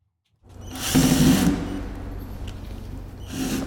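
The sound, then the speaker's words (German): A power drill backs the last screws out of a wooden crate in an empty museum hall in Lagos, a buzzing whir that swells briefly and then settles into a steady, lower mechanical drone. “Ein Angestellter entfernt die letzten Schrauben von der Holzkiste.”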